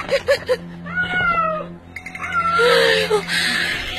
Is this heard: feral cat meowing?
yes